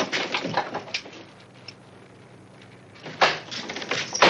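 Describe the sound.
A door opening and closing in a house in a western film scene: bursts of clattering, rattling noise at the start and again near the end, with a quieter stretch between them.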